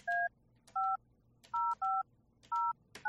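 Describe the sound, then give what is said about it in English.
Touch-tone dialing of a telephone number for a business in Cathedral City, California: five crisp dual-tone beeps at an uneven pace, each opened by a key click, then the start of a sixth, over a faint low hum. “So let's see if we can dial this one up here.”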